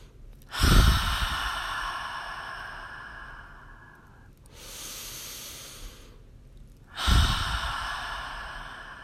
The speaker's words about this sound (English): Taking a deep breath.